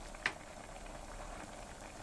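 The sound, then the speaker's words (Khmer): Mushroom soup boiling in a pot, a faint, steady bubbling hiss with one small pop near the start and no voices. “ចាឃើញថាផ្សិតរបស់យើងក៏បានឆ្អិនហើយហើយទឹកសម្លរបស់យើងក៏បានពុះដែរ”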